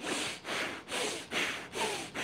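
Kundalini yoga breath of fire, very fast rhythmic breathing through the nose, a steady run of about six quick, even breath bursts, each a soft rushing hiss with short gaps between.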